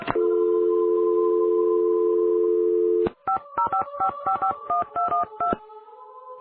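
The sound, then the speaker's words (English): Telephone dialing on a call to directory information in New Mexico that fails: a steady dial tone for about three seconds, then a rapid run of many touch-tone keypad beeps, ending on a steady lower tone. “when I call information in New Mexico to find out what the trouble is, it just keeps disconnecting”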